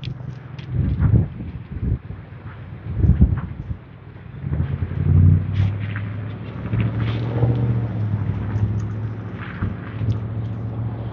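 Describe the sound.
Wind blowing outdoors under a cloudy sky, a low rumbling roar buffeting the microphone, with stronger gusts early on and a steadier, softer rush afterward.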